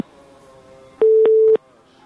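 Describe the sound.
A phone line tone follows a call that has been cut off: one steady, mid-pitched burst of about half a second, edged by clicks, stands out loudly over a faint low background.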